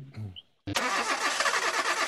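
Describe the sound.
A car engine cranks briefly and catches, then runs on with a loud, steady, rough mid-pitched roar after a short silence.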